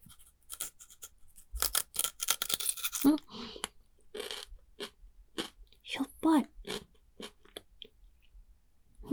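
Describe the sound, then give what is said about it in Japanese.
Crunchy chewing of the heavily salted root end of a carrot: many sharp bites and crunches, irregular in rhythm, with talk in between. “塩が超かかってる根元の部分食べてみるね。”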